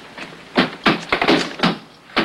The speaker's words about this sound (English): Crap Game and Willard both bang the double doors with the butts of their rifles. The doors don't budge.